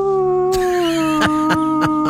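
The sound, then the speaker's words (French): A person imitates a dog with one long, loud howl whose pitch slowly sinks, cut through by a few short, sharp yap-like bursts. “je vais hurler avec eux. Je peux faire des petits piaillements, je peux faire des petits aboiements quand je joue avec mes animaux.”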